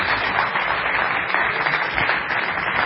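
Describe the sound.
A church audience claps to welcome a speaker coming forward. The applause is brief, loud and steady, with a dense wash of hands and no break.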